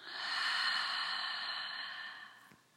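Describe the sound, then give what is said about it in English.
A single long, airy breath taken during a guided breathing exercise, drawing in through the nose and letting out through the mouth. It is soft and steady, then tapers away near the end, with no talk. “Once more, inhale through your nose. Open your mouth and let it go.”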